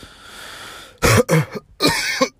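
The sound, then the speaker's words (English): A person with a cold coughs a few harsh, throaty times in quick succession after a quiet moment, the bursts loud and abrupt. “Excuse me. I have a cough. I have a cold.”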